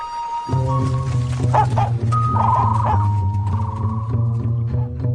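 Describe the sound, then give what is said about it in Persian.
Stray, hungry and sick dogs bark and yelp, loud and continuous from about half a second in, with sustained whining tones running through the barks and no talk. “مراقب سگ‌ها باشید.”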